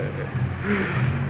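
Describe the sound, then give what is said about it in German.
Steady drone of a Junkers 13 airplane engine, a continuous low, rough hum with a whirring overtone, holding at an even loudness throughout. “Genosse Kapitän, ich höre das Flugzeug des Genossen Babuschkin.”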